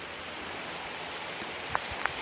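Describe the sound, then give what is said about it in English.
Rain falling steadily while the sun shines, a continuous soft hiss of drops with a few faint taps near the end. “Okay, now it's sunny here and the rain's still coming down.”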